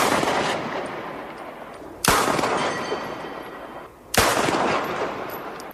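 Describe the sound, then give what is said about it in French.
Three 9 mm gunshots fired at night at the foot of tower blocks: loud, sharp cracks about two seconds apart, each trailing into a long, ringing decay. “Trois coups de 9 mm tirés au pied des tours. Malgré les détonations cette nuit-là, personne ne préviendra la police.”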